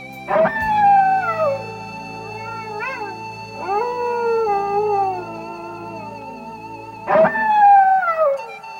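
A wolf howling: long, loud, sustained howls that slide downward in pitch, several layered over one another and swelling again near the end, with no talk.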